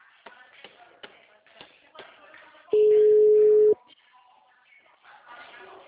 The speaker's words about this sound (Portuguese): Ah, tá, ainda tá chamando.